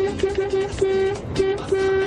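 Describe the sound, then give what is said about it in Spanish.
Car horn honking in a rhythmic burst of several short toots followed by longer blasts, all on the same steady mid-pitched tone over a rumbling background. “Acá va mi bocina.”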